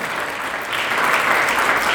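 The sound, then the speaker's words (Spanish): An audience applauds during a church sermon. The dense clapping swells noticeably louder partway through and continues steadily to the end. “Denle el aplauso a Cristo, por favor.”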